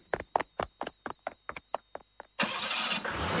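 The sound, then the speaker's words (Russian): A car engine being started: a rapid run of many sharp starter cranks, then the engine catches and settles into a steady, louder running roar. “Когда машина тронулась, мама Кати”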